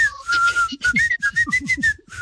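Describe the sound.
Whistled melody from a song, a run of clear, high notes, some short and some held, rising and falling in a lively tune.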